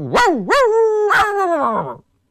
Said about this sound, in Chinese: 有的水家庄啊，还跑出来很多狗，那有野狗啊，也有水家庄人家老百姓家的狗啊。